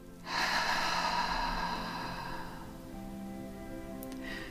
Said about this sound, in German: Atme nochmal ganz tief durch die Nase ein und durch den Mund wieder aus.